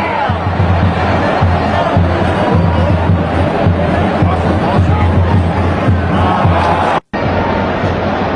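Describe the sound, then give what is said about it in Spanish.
A large stadium crowd at a football match in Las Vegas roars and cheers in a loud, continuous wall of voices with rhythmic chant-like pulses, cut by a brief dropout near the end. “Y ahí está la impresionante reacción del público.”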